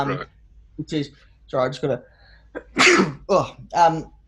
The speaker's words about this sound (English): that's a coronavirus. That's what we call coronavirus sneeze.